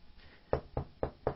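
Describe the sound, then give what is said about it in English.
Knocking on a table: four firm knuckle raps spaced evenly, each a short hollow thud with a clear gap between, heard alone over faint background. “Yes, I'm knocking on this table.”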